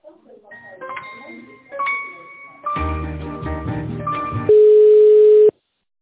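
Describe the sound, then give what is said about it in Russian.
A call is transferred to a company's tender department. A tinkling electronic hold melody grows fuller and denser, then gives way to one loud, steady ringback tone of about a second before the line goes silent. “Руководитель тендерного отдела Владислав, сейчас переведу.”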